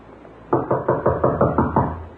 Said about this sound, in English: A simple thing. Just knock on the door and go in.